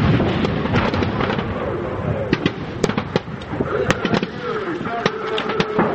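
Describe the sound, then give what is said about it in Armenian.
Rocket artillery and tank fire pound the Alagyaz mountains during a military exercise. Many sharp bangs and cracks burst over a continuous rumbling roar, with indistinct voices underneath. “Բավականին մեծ թվով ռեակտիվ հրետանի օգտագործվեց, տանկերից ու հատուկ նշանակետից ռմբակոծվում էր Ալագյազի սարերը։”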